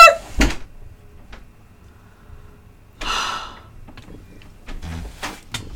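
A door being shut indoors: a sharp thud near the start, then a rustling stretch and a few softer knocks and bumps, with no talking.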